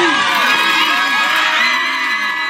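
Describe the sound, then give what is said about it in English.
Dozens of supporters outside a courthouse cheer just after court adjourns, a loud, continuous wash of shouts, whoops and yelling voices that holds steady throughout. “That's the sound of a $1.75 million cheer coming just moments after court was adjourned.”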